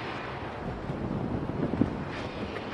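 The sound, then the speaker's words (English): Wind blowing outdoors during a walk with a dog, a soft, continuous rushing noise with low rumbling buffets against the microphone and no voices. “It's a little breezy out here.”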